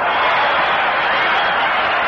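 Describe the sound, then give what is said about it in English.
A baseball stadium crowd roars a welcome to the Cleveland Indians manager during the series. The sound is a loud, dense, unbroken wall of cheering voices with a dull, old-recording tone. “And the crowd roars a welcome to him.”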